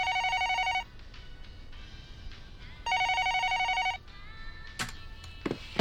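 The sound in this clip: A telephone rings in two bright, buzzing bursts separated by a pause of about two seconds. Softer clatter and brief knocking sounds follow, with no talk.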